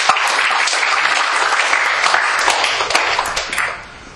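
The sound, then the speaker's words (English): Audience applause welcoming a guest onstage, a dense, steady wash of many hands clapping that holds loud throughout, then tapers off at the very end. “Will you give him a hand, please?”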